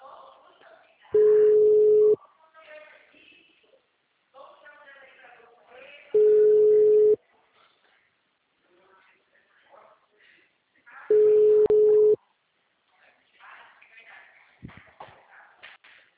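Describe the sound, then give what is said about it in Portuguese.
Telephone ringback tone from an outgoing call: three steady one-second tones about five seconds apart, with faint murmuring voices in the gaps between them. “Vou ligando para ele.”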